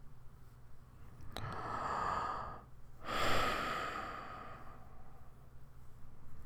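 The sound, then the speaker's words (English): Deep breathing, with two slow, audible breaths in quick succession, each a soft rushing swell of air. “Deep breath. Can I get 5 deep breaths, please?”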